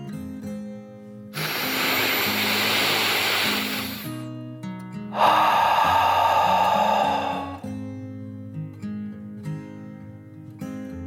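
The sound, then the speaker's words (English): A deep breath in and out during a soothing children's meditation: two long, airy rushes, the second one stronger and hissier, over soft, calm background music. “Andy took a deep dragon breath, in and out.”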